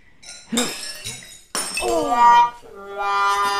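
Wine glasses are knocked over by a dog, and a second glass breaks. Two sharp glassy impacts ring out, each followed by bright, sustained ringing tones.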